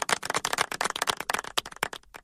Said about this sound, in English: The audience agrees. Shut the fuck up. The audience agrees. Mm-mm. Yeah, it's probably your schizophrenia. It's not schizophrenia. The audience literally just clapped.